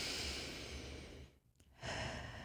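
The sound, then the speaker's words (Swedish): Slow breathing, in through the nose and out through the mouth: a soft, airy rush of breath that fades into a brief quiet gap before another breath of steady hiss. Faint and unhurried, with no speech. “Ta ett sista långsamt andetag in genom näsan och ut genom munnen.”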